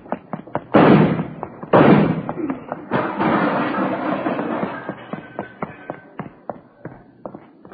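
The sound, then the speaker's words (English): Gunshots in a tense armed standoff: two loud, sharp bangs about a second apart, followed by a stretch of rough noise and many scattered light knocks and taps. “You didn't have to shoot, did you? Lousy deal, you didn't have to shoot.”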